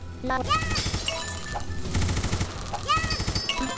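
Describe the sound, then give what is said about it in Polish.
Rapid machine-gun fire in a video game, a dense rattle of quick bursts mixed with synthetic rising chirps and electronic game music. “Machine gun. Tutaj jest machine gun właśnie i możemy strzelać z niego na zasadzie tej.”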